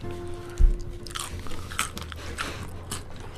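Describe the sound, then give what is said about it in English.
Crunchy nachos being eaten, starting with one loud, sharp bite, followed by quieter crunching and chewing with no talk over it. “I've been eating nachos this whole time.”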